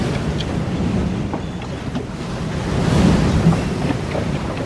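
Sea waves surging in a steady, roaring wash mixed with wind noise. The broad rumble swells slightly around the middle before settling again, with no voices.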